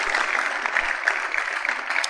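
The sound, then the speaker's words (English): Brief audience applause at a church talk, a short burst of steady clapping. “Let's give him a big round of applause.”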